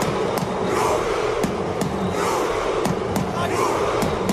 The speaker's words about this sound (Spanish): Ahí está, el famoso remo vikingo que está enamorando a medio mundo.